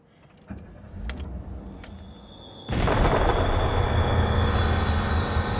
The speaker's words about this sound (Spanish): Una bomba había explotado a sus espaldas.